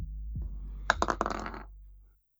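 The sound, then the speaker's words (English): A ten-sided die is rolled and clatters in a quick series of bouncing clicks that tumble to a stop, over a low steady hum. “Roll me a d10.”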